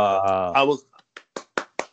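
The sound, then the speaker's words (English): A few short, sharp hand claps, four in a row at a steady pace, following a brief stretch of voice. “There was a little clap just to make up for it.”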